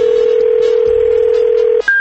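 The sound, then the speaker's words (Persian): A telephone call being placed: a long, steady telephone tone cuts off and is followed by a brief, higher-pitched tone, with no talk. “بعضی وقت زنگ میزنیم پیداش نمی کنیم، دوباره زنگ زدیم ببین چی شد.”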